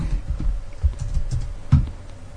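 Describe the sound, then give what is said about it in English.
Someone types a YouTube search on a computer keyboard, a run of soft, irregular key clicks with one louder tap near the end. “It's on YouTube. Just type in two Pop-Tarts, question mark.”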